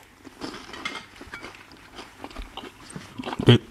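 Someone chews a larch bolete mushroom while tasting it: many soft, moist crunches and bites at a low level, ending with a louder crunch.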